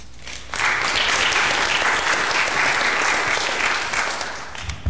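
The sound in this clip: Audience applause welcoming a local attorney as a speaker, rising abruptly after a quieter half second, holding steady, then gradually thinning toward the end.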